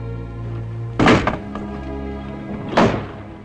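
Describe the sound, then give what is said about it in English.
Window shutters slamming shut: two heavy, loud thuds about two seconds apart, each with a short rattle, over a low steady hum. “Hendley shuts another window, staring out as the shutters slam home, and turns grimly as more shutters are closed.”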